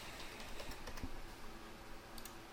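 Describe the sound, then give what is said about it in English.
Faint computer keyboard typing and mouse clicking tick along in a few light, irregular taps, alone with no voices. “So I'm going to click add. Let's add product.”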